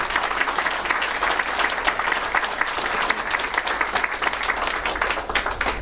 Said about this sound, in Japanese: 皆様と共に盛大な拍手を送っていただきます。